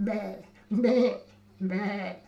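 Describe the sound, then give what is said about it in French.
A human voice imitates a goat bleating, giving three wavering, nasal bleats with short pauses between them. “La chèvre, vous savez le faire?”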